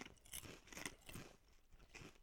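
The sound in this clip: Crunching as a potato snack flavoured with Parmesan and pesto is bitten and chewed: a few crisp, crackly bites and chews at an uneven pace, fairly faint, with no talking.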